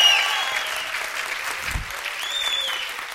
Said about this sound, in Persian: تشویق میکنین سفدا مسیحو؟ آقا نرو اینقدر. نه دیگه این سفدا مسیحو اینجوری تشویق میکنین.